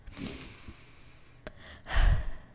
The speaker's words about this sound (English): Honestly, I needed that deep breath.